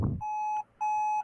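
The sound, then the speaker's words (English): Two steady mid-pitched electronic beeps from an online calling app as a video call starts, each tone held briefly with a short gap between, fairly quiet. “so there's this little beep once you start a call”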